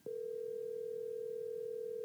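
A steady telephone dial tone sounds while someone phones a caller: one unbroken, even-pitched tone holds for about two seconds on its own, with no voices.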